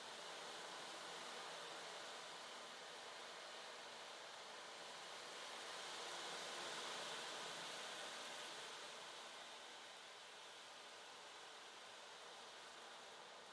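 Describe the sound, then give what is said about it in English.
A soft, steady wash of ocean waves, used as a backdrop for a guided meditation. The faint hissing surf swells gently midway and then recedes. “as the sound of the waves begin to wash away negative thinking and excessive chatter in the mind.”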